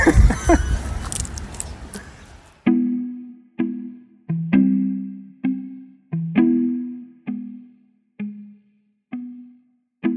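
Someone attacks a mailbox with many hollow metallic bangs at irregular intervals, each blow loud and sharp before a resonant ring fades away, following a stretch of messier noise at the start.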